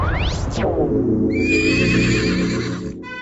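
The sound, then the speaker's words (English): A fiery horse gives a loud, shrill neigh that opens with quick downward-sweeping cries and trails into a drawn-out whinny. “A fiery horse with the speed of light, a cloud of dust, and a hearty hi-ho, Silver the Lone Ranger!”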